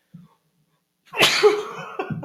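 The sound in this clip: One loud, sharp sneeze bursts out after a moment of near silence and trails off into a breathy tail, preceded by a tiny faint sound.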